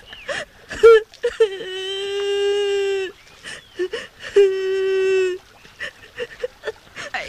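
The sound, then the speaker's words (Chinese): A child crying after being left behind by a teacher, heard as two long, high, wavering wails with short sobbing bursts before, between and after them. “小朋友啊，怎么了？为什么在这儿哭啊？别哭了。”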